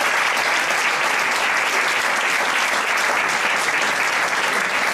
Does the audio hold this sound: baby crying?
no